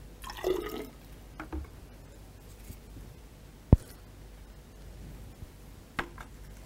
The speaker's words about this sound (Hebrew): על מנת שזה יהיה מדויק, אני קצת אשטוף את המסורה ונמשיך מיד בהדגמה.